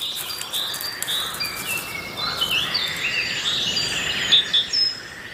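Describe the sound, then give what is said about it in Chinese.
Common crane chicks call by a river pond in a steady stream of thin, high peeps and short whistles, faint and overlapping over a soft hiss of background noise. “在学会飞行前，灰鹤幼鸟仍然需要河里水塘的庇护，不久之后他们就会离开这里。”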